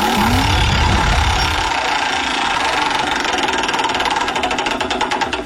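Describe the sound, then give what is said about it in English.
A prize wheel spins during a game, giving a rapid, steady stream of ticking clicks that grow more distinct and spaced out toward the end as it slows. “Spin that wheel”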